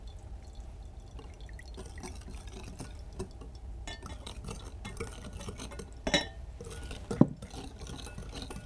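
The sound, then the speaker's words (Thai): Water and glycerin being mixed in a container: a faint, continuous soft stirring and sloshing, with two small, sharper clinks near the end. “ต่อมานะคะเราก็จะนำส่วนผสมส่วนที่2นะคะมาผสมในอีกภาชนะหนึ่งนะคะอาจารย์นะคะก็ส่วนผสมส่วนที่2ก็จะมีน้ำนะคะกลีเซอรีนนะคะ”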